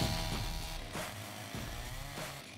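Chainsaw engine cutting into a wooden trunk to carve wild boar figures, before an audience at a timber merchant's spring festival: a loud buzzing drone surges and revs in several rhythmic bursts as the blade bites into the wood.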